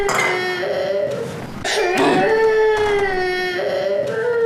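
A child crying, loud wailing cries with a strong tonal, quavering pitch that breaks off briefly before resuming even louder and continuing to the end.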